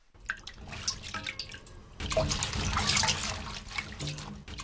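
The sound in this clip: Water splashing and sloshing as mustard greens are washed thoroughly around the root ends to rinse out sand, a continuous rinsing sound that grows louder midway, with small drips and splashes throughout.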